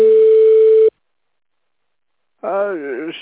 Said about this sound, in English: Just leave your message after the tone.